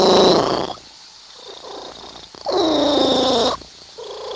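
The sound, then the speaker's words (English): A domestic cat purrs in a rumbling, pulsing drone, alone without talk. Louder stretches come at the start, the middle and the end, separated by quieter gaps. “That is the sound of a purring cat.”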